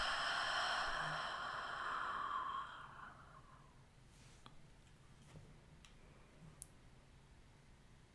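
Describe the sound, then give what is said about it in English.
A slow, soft exhale during a breathing exercise: one long, airy breath that fades gradually over a couple of seconds into near silence, with a few faint clicks afterward. “And one more inhale. And exhale a sense of gratitude for where you are right now.”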